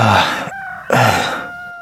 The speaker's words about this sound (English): A rooster.